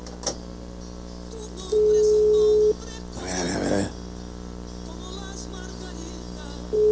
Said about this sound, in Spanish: Ay, que conteste rápido, por favor. Ahí está dando tono.